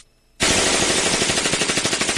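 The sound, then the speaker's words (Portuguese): Loud automatic gunfire with shots sprayed in all directions starts abruptly after a brief silence, then runs on as one sustained burst of rapid, evenly spaced reports. “Ele tá atirando pra todo lado, Cebolinha.”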